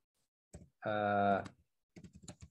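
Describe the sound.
Keyboard clicks as someone types a search on a computer keyboard: sparse keystrokes at the start, a short stretch of voice, then a quick run of several clicks near the end.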